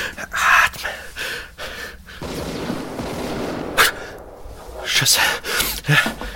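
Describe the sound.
A woman gasps for breath in ragged, uneven pulls of air. Many sharp intakes and breathy rasps rise and fall in loudness.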